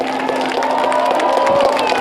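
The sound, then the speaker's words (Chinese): Clapping and exclamations from an audience of over 800 at an outdoor aerial stage show where performers scatter gold powder from umbrellas, a continuous crowd sound of applause mixed with voices. “当演员们手持花伞在空中撒下一片金粉，现场800多名观众发出阵阵惊呼，掌声不断。”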